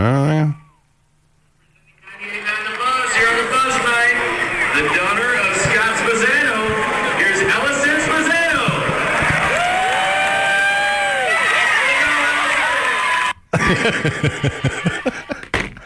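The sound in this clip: Crowd at a baseball game's first pitch, played back from a video recording: a loud, continuous roar of many voices with cheering and some clapping.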